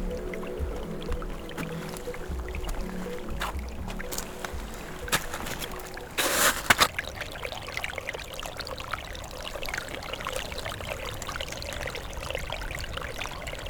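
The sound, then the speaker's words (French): Water gurgles and trickles beneath a snow cover in a steady, soft babbling flow. A brief louder splashing burst rises midway, and there is no talk. “Et au-delà du manteau neigeux, de l'eau qui glousse”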